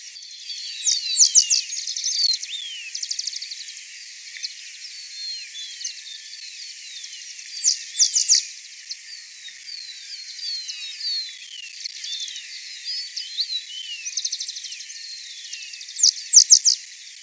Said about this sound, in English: band-tailed Sierra finch, 1, with rufous-collared sparrow.